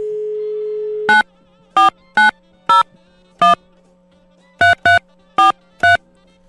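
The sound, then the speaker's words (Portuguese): Telephone dialing: a steady dial tone holds for about a second, then nine sharp keypad beeps follow at uneven intervals, some in quick pairs, loud and clear over a faint hum. “Deixa eu ligar aqui, vai.”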